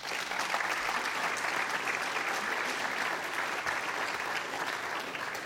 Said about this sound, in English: Also, Marion will be doing the next series the next 12 weeks, so let's give her a nice welcome.